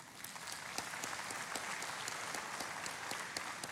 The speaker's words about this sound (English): I think the service wants to clap.